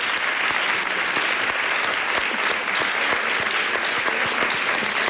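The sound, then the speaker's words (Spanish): Audience applause for a worker who sewed a pair of espadrilles, a dense, loud and steady wash of many hands clapping that holds without a break from start to finish. “Así que le vamos a dar un aplauso. Un aplauso a Mercedes.”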